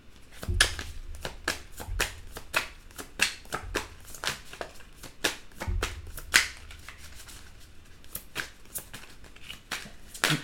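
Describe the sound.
Tarot cards are shuffled and drawn during a reading, giving many sharp riffling snaps and slaps in irregular bursts, some louder than others, with quieter card handling between them.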